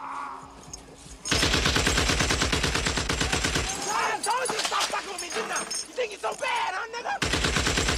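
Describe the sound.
Gunfire in a war film scene: dense rapid machine-gun bursts that rattle on for several seconds, with shouting voices breaking through during a short lull before the firing resumes.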